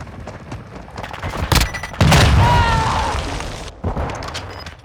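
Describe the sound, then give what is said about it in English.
Pistol gunfire in a video game: a few sharp, loud bangs, one with a long booming tail, over a lower game background. “Right I scared you with my pistol.”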